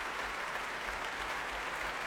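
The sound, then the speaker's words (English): Applause at an orchestral concert with a large string section: a dense, even wash of many clapping hands, faint and continuous. “He claps the orchestra, leaves the stage again.”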